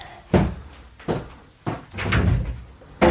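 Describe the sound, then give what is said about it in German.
A window being opened, heard as a few dull knocks and thunks with a longer scraping slide between them. The sounds are fairly loud, and no one talks. “Darf ich mal das Fenster aufmachen”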